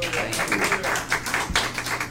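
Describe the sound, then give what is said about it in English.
A church audience applauds to welcome a preacher to the pulpit, with dense, continuous clapping that stays steady at a moderate level from start to finish. “Okay. Let's welcome him with a nice applause here.”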